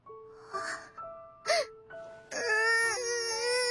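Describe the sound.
A girl cries happy tears, with wavering, breathy whimpers and sobs that swell into a sustained, high, tremulous wail toward the end.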